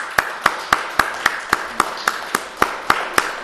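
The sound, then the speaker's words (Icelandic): An audience claps for a guest speaker: twelve sharp, evenly spaced claps in a steady, brisk beat, ringing out over a continuous bed of softer scattered applause. “við gefum honum gott klapp”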